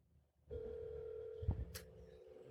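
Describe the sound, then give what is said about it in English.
A call's ringback tone plays from an iPhone 7 as it rings. One steady tone begins after a brief quiet and holds to the end, with a dull thump and some faint background noise part way through. “It's calling. It's still ringing.”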